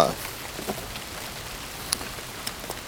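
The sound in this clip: Heavy rain falling outdoors during a fishing outing, a quiet continuous patter with a few sharper drops standing out now and then.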